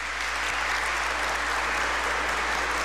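Steady, dense applause from a cathedral parish audience welcoming a new seminarian. It holds an even, loud level throughout with no voices.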